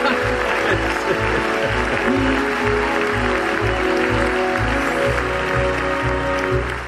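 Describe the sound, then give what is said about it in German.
Audience applause in a game-show scene of a radio play, a steady wash of clapping over a pulsing, rhythmic low music beat. “sie läuft und das ist doch ein Applaus wert!”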